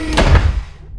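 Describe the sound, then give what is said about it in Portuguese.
A door opens with a single solid clunk that rings out and decays quickly into quiet. “Agora abra a porta.”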